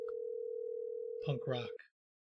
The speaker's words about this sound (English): We're trying to get Joe on the phone.